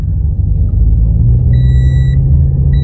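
A car's engine rumbles steadily and loudly as the vehicle sets off and drives, the low drone continuous throughout, with a short high-pitched steady tone sounding partway through and again briefly at the end.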